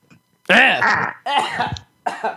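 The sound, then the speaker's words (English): A person coughs after choking on beer: a few loud, raspy, partly voiced coughing bursts with gasping, sputtering strain between them. “That's not a dry cough. I choked on my beer.”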